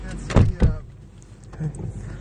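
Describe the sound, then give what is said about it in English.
A car hatch is slammed shut, giving two heavy, low thumps in quick succession, followed by a quieter, rumbling background. “Don't slam the hatch”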